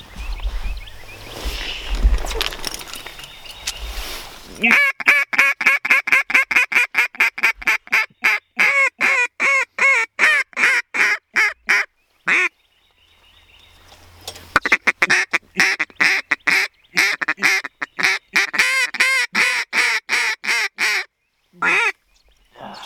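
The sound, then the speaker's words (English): A large flock of ducks and geese calling during a public-land hunt. Many loud quacks and honks come in dense, rapid runs with short pauses, after a few seconds of low rumbling noise. “holy crap, look at all those birds, dude.”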